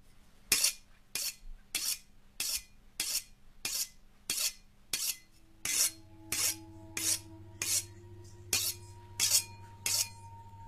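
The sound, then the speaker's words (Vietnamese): Rasping strokes of a large butcher's knife drawn across a whetstone before a pig slaughter, a steady rhythmic series of many scraping passes, each a short gritty swish followed by a brief pause, heard alone. “Cầm con dao bầu trên tay, liếc liếc qua cái cục đá mài”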